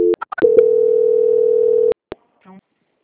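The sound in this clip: A telephone line tone plays during a call transfer: a few quick clicks and short beeps, then a steady low tone held for about a second and a half that cuts off abruptly, followed by faint clicks.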